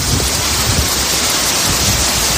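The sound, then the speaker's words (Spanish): Heavy rain pours down at night over the south of Valencia province around Alzira during an intense storm, a dense, loud, steady hiss with a rumbling low texture that runs continuously without a break. “Lleva la mitad de la noche lloviendo. Desde mitad de madrugada ha empezado a llover como si se terminase el mundo.”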